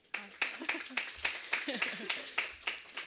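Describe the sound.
Sparse clapping from a small audience welcoming a speaker: many sharp, separate hand claps at an uneven pace, fairly faint, with a low murmur of voices underneath.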